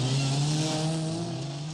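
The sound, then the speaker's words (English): A small Morris Mini car engine hums while the car is parked. The low drone holds a steady pitch with clear overtones, fairly faint and heard alone. “See how easy the Morris Mini Miner is to park.”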